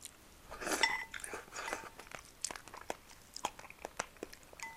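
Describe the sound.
Chewing of a hearty meal, with a run of faint, crunchy, crinkly bites and mouth sounds at an irregular rhythm and no talk over it.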